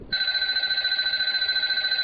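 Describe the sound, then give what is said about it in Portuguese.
A mobile phone rings with a continuous electronic trill, a steady high-pitched tone rapidly pulsing in level, loud and alone after a brief start. “O celular.”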